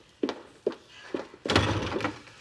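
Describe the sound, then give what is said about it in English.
A door being opened as someone answers it: three dull wooden thumps, then a longer, louder clattering burst. “Ted answers the door.”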